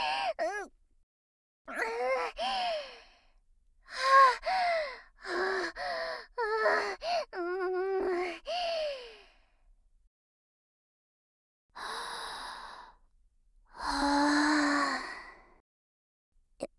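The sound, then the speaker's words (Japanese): Deep breathing comes in a run of audible breaths and voiced sighs and gasps with short pauses between them. After a silence, two longer, breathier exhalations follow. “ちょっと一旦、深呼吸させてほしいっす。”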